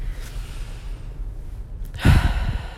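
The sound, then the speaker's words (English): A deep breath taken during a guided prayer: quiet at first, then one full, breathy rush of air near the end, with no talking. “if you are in a spot to be able to close your eyes and take a deep breath, I'd ask for you to breathe with me.”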